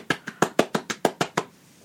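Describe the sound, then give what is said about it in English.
Fast hand clapping in a film scene: nine sharp, rapid claps in a steady, even rhythm, then quiet. “The fast claps.”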